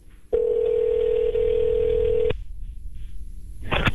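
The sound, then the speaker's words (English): A steady telephone dial tone hums evenly for about two seconds while a call is being placed, then cuts off abruptly. After a short quiet stretch, a brief burst of dialing tones follows near the end. “And so I just wanted to call and say hi to this person.”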